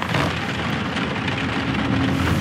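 Steady rain falling, an even, continuous hiss with no distinct drops standing out and no voices.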